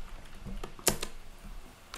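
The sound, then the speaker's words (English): Computer keyboard arrow keys tapped while someone navigates a racing game's menus: a few faint, quick clicks, with one sharper keystroke standing out, and no talk. “I keep accidentally pressing left arrow.”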